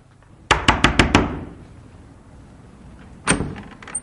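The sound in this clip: Knocking on a locked door: five quick, sharp raps in a row, then a pause and another single knock, with nothing else in between.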